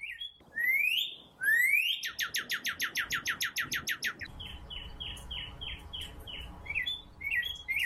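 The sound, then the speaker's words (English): A cardinal sings clear, whistled notes alone: a few rising slurred whistles, then a fast, even run of short repeated notes, then a string of quick down-slurred chirps. “let's listen to the cardinal. I just love their call.”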